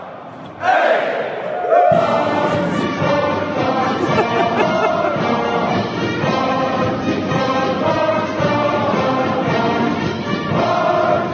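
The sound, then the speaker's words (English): A crowd whoops and yells at Texas A&M's introductory press conference for new football coach Mike Elko. The loud, sustained chorus of shouts and battle-cry whoops bursts in early and carries on throughout. “the Mike Elko introductory press conference yesterday at Texas A&M? It's like welcoming a new cult leader. Did you see any of this, TJ? The whooping and the – yeah, I saw some of that.”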